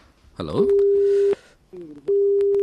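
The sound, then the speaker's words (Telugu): A telephone busy tone sounds after a phone-in call is cut off: a steady, mid-pitched beep that breaks for a moment and then resumes, with a brief voice sound just before it starts. “మరి call cut అయినట్టుంది.”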